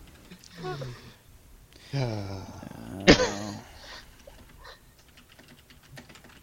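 Typing on a computer keyboard while sending a chat message, with quick scattered keystrokes running under some brief vocal sounds and a sharper tap in the middle.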